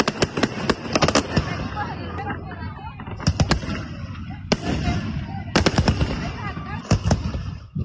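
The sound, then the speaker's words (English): Fireworks explode at a summer fair in Manitoba, many sharp, loud bangs in irregular clusters and rapid crackling volleys, with voices audible underneath between the bursts. “they did a great job of the fireworks last night for the Manitoba Summer Fair”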